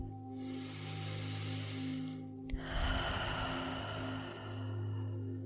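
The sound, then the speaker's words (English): Slow, deep breathing during a guided relaxation: long, airy breath noise with a soft click midway, faint over a steady low hum. “begin to deepen your breath.”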